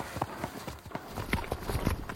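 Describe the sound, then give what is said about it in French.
Hoofbeats of a horse galloping hard along a winding trail. Rapid, uneven thuds repeat throughout at a fast pace against a low rumble. “Il galope à tombeau ouvert le long d'une piste sinueuse.”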